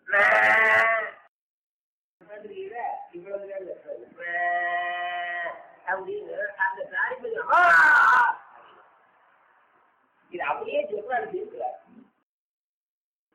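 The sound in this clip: A calf crying, with three loud, drawn-out bawling calls spaced apart and talking in between.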